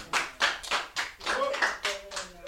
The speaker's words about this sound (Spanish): un aplauso le quieren dar a Sebastián